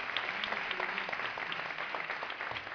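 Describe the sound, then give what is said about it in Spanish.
Audience applause at a big band concert, greeting a musician in the band: many hands clapping in a steady, fairly soft, slightly muffled patter that continues throughout. “Así que un aplauso para el de Valdemoro.”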